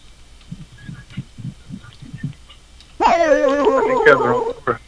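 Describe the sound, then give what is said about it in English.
A dog whines and howls in a loud, wavering, high-pitched cry that fills the last two seconds. Before it comes a series of faint, evenly spaced low pulses. “I'm looking after this dog, and I can't get it to shut up, really.”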